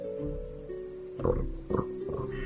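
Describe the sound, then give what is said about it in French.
Wild boar rooting in the earth, heard as a few short, coarse snuffling grunts that stand out above a steady background hum. “Regarde, un sanglier retourne à la terre. Il cherche quelque chose.”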